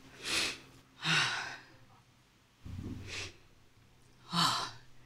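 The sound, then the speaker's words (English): Heavy, sighing breaths from a monk pausing to collect herself: four distinct breaths, each a breathy whoosh with a soft gap after it, and no speech. “Let me breathe a little bit first, okay? I really need it.”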